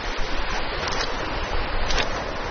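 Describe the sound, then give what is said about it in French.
Waves wash onto the beach of Pénétin in Morbihan, Brittany, as the tide goes out over the rocks. The rush of surf is broad and continuous, swelling slightly in places. “Je marche sur la plage de Pénétin dans le Morbihan en Bretagne.”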